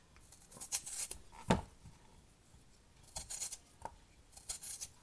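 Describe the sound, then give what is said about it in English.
Potatoes being peeled quickly, with soft rasping and scraping strokes at an irregular pace and one sharper knock in between, all quite faint and without talk. “And then what I have here is some potatoes, and I'm just going to quickly peel those.”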